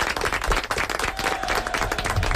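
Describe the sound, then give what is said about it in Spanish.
Clapping from a group in a music lesson after a scales exercise, a lively, irregular patter of many hands at moderate loudness that keeps up steadily with no talking. “Lo habéis hecho muy bien, ¿eh? Vale, un aplaudimiento, un aplaudimiento.”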